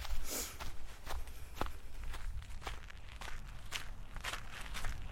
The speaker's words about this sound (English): I've been walking around for a bit